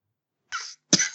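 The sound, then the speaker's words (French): Two short, sharp coughs from a person, separated by a brief pause, the second louder and harsher than the first, with silence before them. “Pardon, je toussais.”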